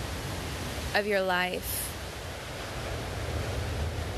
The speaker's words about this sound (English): I want to bring your presence to this sound in the background. It's the sound of the Pacific Ocean and the waves coming into the shore.